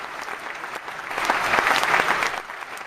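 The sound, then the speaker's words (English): Audience applause, a dense burst of hand clapping that builds toward the middle and then tapers off near the end. “Let's say we have a hand clap for our audio professor, Mr. Tim O'Connor, everybody.”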